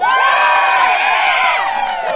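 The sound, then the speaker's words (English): A crowd at the Wellington Pride Festival cheers to welcome speakers to the stage. Many voices make a loud, sustained roar, with high whoops carrying through it. “I want you to give them a gay old cheer to welcome them to the stage. Can you do that for me?”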